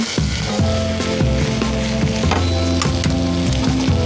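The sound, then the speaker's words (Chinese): Shrimp heads sizzling in hot oil to make shrimp oil, a steady crackling fry with stirring throughout and no voices. “虾头去熬一个虾油”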